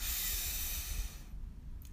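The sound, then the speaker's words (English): A deep breath drawn in through the nose during a guided morning meditation breathing exercise: a soft, airy hiss that lasts about a second, then fades into near silence. “So let's breathe in”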